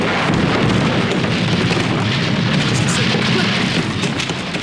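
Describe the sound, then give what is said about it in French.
Gas cylinders exploding in a workshop make a loud, continuous rumbling roar, a dense booming wash that fills the whole clip and eases only slightly at the very end. “L'atelier! C'est à l'atelier! Les bonbonnes! C'est sans doute les bonbonnes qui ont explosé!”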